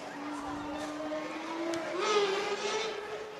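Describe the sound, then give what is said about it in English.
A motorcycle engine revs loudly. Its droning hum holds steady, then climbs in pitch partway through and stays high. “As I hear an engine revving up. That was a motorcycle. Sounded like one. Loud.”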